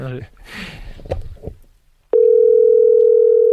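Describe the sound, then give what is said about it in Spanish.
A telephone dial tone on a radio phone-in call starts abruptly after a short stretch of talk and holds as one steady, loud, unchanging pitch. “Pero a ver, tono, primer tono.”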